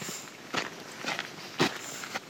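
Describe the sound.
Soft footsteps of people walking through a garden, a few evenly spaced, faint steps over quiet background.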